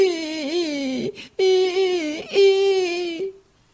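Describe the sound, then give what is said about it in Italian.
A voice imitates Pinocchio, the wooden puppet, crying and bawling loudly in three drawn-out, wavering wails with short breaks between them. “E il povero Pinocchio cominciò a piangere e a berciare così forte che lo sentivano da 5 chilometri lontano.”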